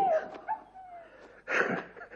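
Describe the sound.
A hunting dog whimpers: a thin, high whine that slides downward, a few soft whimpers, then a louder, brighter yip near the end, all faint and with no talk.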